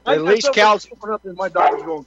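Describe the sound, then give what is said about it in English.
A dog barks and yips several times in short, loud bursts that overlap with people talking. “Cal's dog wants to join in the conversation, folks. We apologize for that.”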